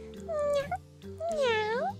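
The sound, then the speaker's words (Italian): A small black kitten meows twice: a short meow, then a longer, louder one that bends up and down in pitch, with a brief pause between them. “Miau, miau. No, una gattina nera.”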